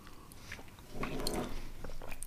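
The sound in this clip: Biting into a lavender-flavoured Kokumis treat: a crunchy bite with crackling chewing noises that grow louder after about a second and carry on to the end.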